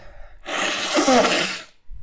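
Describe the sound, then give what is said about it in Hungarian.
A person with a cold blows their nose in one long, loud, breathy rush of noise lasting just over a second, with a short pause afterward. “Időt hadd kérek már, bocsánat, amíg kifújom gyorsan.”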